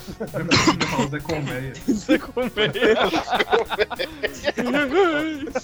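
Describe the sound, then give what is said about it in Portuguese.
A cough, rough and breathy, breaks out in short bursts, with people talking through most of the moment. “deixa eu tossir.”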